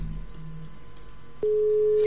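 A steady telephone line tone on an incoming call begins about two-thirds of the way through and holds unbroken to the end, loud and even after a quiet, noisy line.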